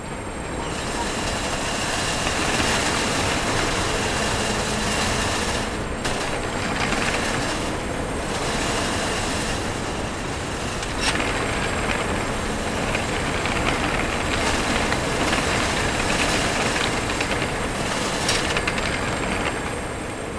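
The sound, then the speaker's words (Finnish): Loud, steady mechanical rumble and hiss of a robotic depalletizer unloading pallet layers onto a conveyor line in an automated food warehouse in Sipoo, with continuous rattling running unbroken throughout and no voices. “kone purkaa lavakerroksen kerrallaan ja tuotteita tuohon kuljetin linjalle ja sitten tuote, tuotepakkaukset lähtee linjaa pitkin sitten eteenpäin.”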